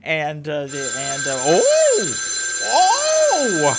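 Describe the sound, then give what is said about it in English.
Telephone ringing: a loud, continuous warbling tone that swoops up and down in wavering arcs over a steady high electronic pitch, repeating without pause. “I don't understand why the death phone would be ringing.”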